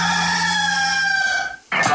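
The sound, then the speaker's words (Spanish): A rooster crows once, a loud, drawn-out cock-a-doodle-doo with harmonic tones that fades at the tail before a brief abrupt sound cuts in at the end. “Este es el gallo.”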